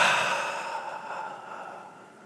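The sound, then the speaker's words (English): A deep breath out, a soft, airy exhale that starts strongest and slowly fades away over about two seconds, with no speech. “Breathe deep with me. Breathe out.”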